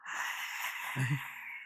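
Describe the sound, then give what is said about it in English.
A voice imitates a cliché movie ghost's groan: a long, breathy exhale that stays steady throughout, with a brief low voiced moan swelling near the middle before trailing back into airy breath. “As in yung cliche tunog ng Mumu sa movies na parang groan na.”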